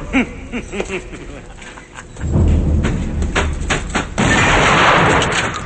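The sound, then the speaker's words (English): Gunfire in a film scene set among factory machinery, with a shotgun and a pistol: several sharp bangs over a loud, dense rumbling action soundtrack. “They fire at someone on a high walkway and hit him.”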